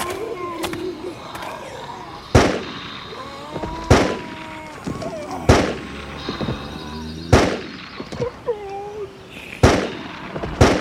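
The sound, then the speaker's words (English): Gunshots ring out as a kid fires at monstrous eaters: several sharp, loud cracks spaced a second or two apart, with wavering, voice-like cries and rustling filling the gaps between shots. “That's some nice shooting, kid.”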